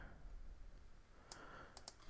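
A few sharp computer mouse clicks while importing a custom Power BI visual file, brief and faint against quiet background noise.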